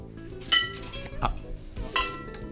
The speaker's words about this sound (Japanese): これちょっと重いんで今床に置いてますけども、うん、本番はちゃんと台の上に乗せて叩く。 そうじゃないとね、あの片膝立てて叩くことになりますもんね。あのブレーキのドラムブレーキの真ん中の部分ですね